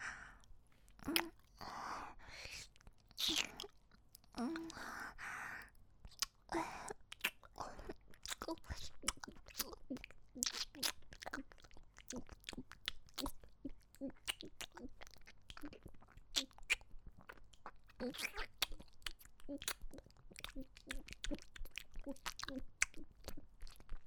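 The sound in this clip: A person chewing and eating food, with many rapid, moist chewing and crunching sounds in a busy, irregular rhythm throughout.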